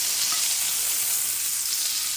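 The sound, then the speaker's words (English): Butter sizzling in a frying pan as a sandwich cooks: a loud, bright, continuous hiss with a crackling texture, steady throughout with no talk. “You can hear the butter sizzling away.”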